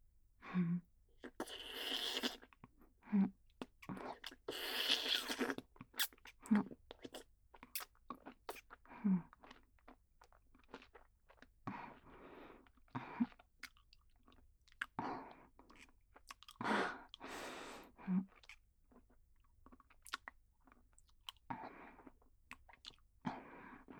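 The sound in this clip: Someone chewing and crunching food: many faint, irregular crisp bites and wet mouth sounds spread throughout, with brief pauses between them and no talk.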